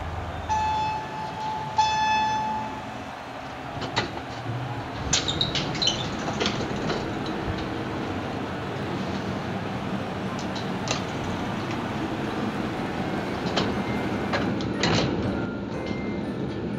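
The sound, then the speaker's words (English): Sound effect for a fictional nanotechnology elevator: a steady mechanical hum with a few electronic beeps near the start and scattered clicks and clanks, like doors and machinery working. “As it happens, this is a special fictional elevator put out by the OR&R Department of Nanotechnology.”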